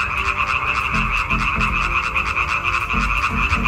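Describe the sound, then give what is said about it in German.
Male frogs croak in a dense, continuous chorus to attract females. Many overlapping calls form a steady, loud trilling drone with a pulsing low croak beneath it throughout. “Das Weibchen wählt in der Regel das Männchen mit dem schönsten, lautesten und längsten Quaken.”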